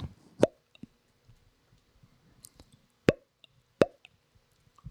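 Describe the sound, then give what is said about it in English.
A voice imitates a pop sound with sharp, hollow mouth plops: three loud ones stand out, with fainter clicks and smacks scattered between them. “I'm trying to do a good pop sound. Here it is.”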